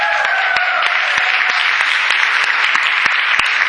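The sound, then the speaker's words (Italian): Audience applause welcoming guests: loud, dense clapping that runs evenly from start to finish, with no talk over it. “E abbiamo quest'oggi qui con noi Vitali e Larissa, che vogliamo accogliere con un grande applauso.”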